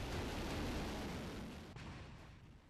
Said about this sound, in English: That's a North Korean propaganda video of a missile launch, a visual reminder of the great leader's top priority.